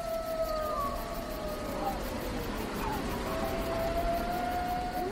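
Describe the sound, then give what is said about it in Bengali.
A pack of wolves howls mournfully on a dark, snowy evening, with long, wavering, gliding tones overlapping one another above a steady hiss. “নেকড়ের দল এখন করুণ সুরে যেন মৃত্যুকে আহ্বান জানাচ্ছে।”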